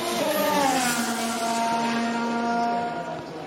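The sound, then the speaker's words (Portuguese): High engine whine from Formula 1 cars coming onto the track at the 2016 Australian Grand Prix, a steady tonal drone with slight pitch shifts that holds throughout and eases off near the end. “E nós já vamos já para a largada, já vem carro para a pista.”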